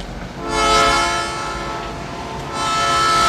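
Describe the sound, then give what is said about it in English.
A train pulls in on the tracks by a rail yard: a loud, continuous rolling rumble with a steady tonal horn-like hum. It swells early, eases through the middle, then surges again near the end. “Another train pulls in.”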